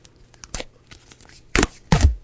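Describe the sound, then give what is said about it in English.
Duct tape being torn off the roll in a few short, sharp ripping bursts, the last the loudest and longest, separated by near silence. “I got duct tape. Here. We'll do the duct tape serenade.”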